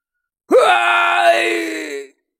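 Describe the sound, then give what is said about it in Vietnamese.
A man lets out a single drawn-out scream of agony after being struck in a fight. It opens with a sharp rising cry, holds as a loud, sustained wail, then trails off, heard alone. “Hai bên vừa va chạm vào nhau thì Phong Chiêu liền hét thảm.”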